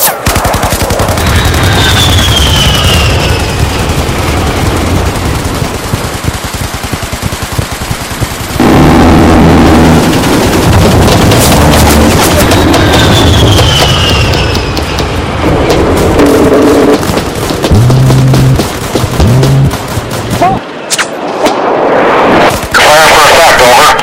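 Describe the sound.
Artillery barrage sound effect: loud, dense bursts of fire and blasts that run almost without a break, with many rapid cracks layered over a deep, heavy roar.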